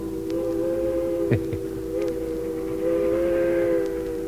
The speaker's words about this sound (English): But it was a train whistle much the same as that that caused some wearisome years for my mama and started a lifelong love affair with trains.